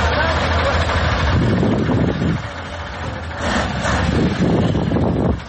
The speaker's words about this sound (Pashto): دا د اورزګان او کندهار د لوی لارې پر سر غټ موټرونه دي چې د کوچني موټرو سره مرسته کوي تر څو له لوړو او ژورو یې تیر کړي او له خټو یې راوځي.